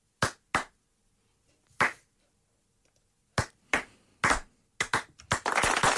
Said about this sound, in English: Can I get one of those slow claps that gets everyone else clapping?